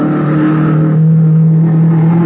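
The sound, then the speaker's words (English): A low, cut-down blue race car with single shocks roars along a sandy beach during speed test trials, its engine a loud, steady mid-pitched drone with a slight rise as it whizzes by. “They were racing in a low, cut-down blue car. The frame had looked familiar as it whizzed by me.”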